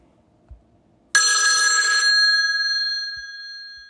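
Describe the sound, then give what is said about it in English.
A telephone bell rings for an incoming call: after a near-silent moment, one bright, loud metallic ring bursts in abruptly, then rattles and slowly fades away over a few seconds. “Whoa, looks like we have the first caller of the day.”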